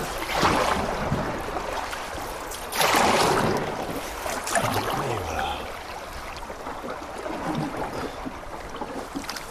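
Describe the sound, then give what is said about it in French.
A boat runs through a fast river current, with a constant broad rush of water and wind. The roar swells in a couple of louder surges early on, then settles into a steady, even wash. “Et là, on est en plein milieu du courant.”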